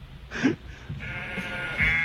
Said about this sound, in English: They play with other animals sometimes. Oh, no, it's sheep. Everyone loves sheep.